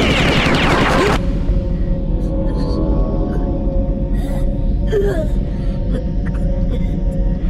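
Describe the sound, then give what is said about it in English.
A dense second-long burst of gunfire shot off on board a vessel, then a loud, steady droning hum with faint warbling tones. “Right then, there ain't nothing in here to speak of! No one on board would care if I shot things up a bit!”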